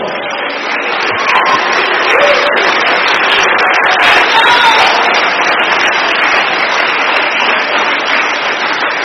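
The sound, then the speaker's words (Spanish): Sustained applause from an audience at an evening church worship service, a thick, steady wash of clapping that runs unbroken for about nine seconds with faint voices mixed in. “Denle aplauso al Señor Jesucristo.”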